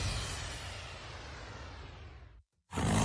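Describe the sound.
Lion roar sound effect in an advert for maize seed: a long, broad, rumbling roar that slowly fades, a brief moment of silence, then a loud new burst of the roar begins.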